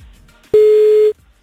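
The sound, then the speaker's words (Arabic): A single steady telephone tone sounds while a call is being placed, one clean mid-pitched beep holding for about half a second against near silence. “خلينا نتصل بأحمد، حابب يشارك بالموضوع”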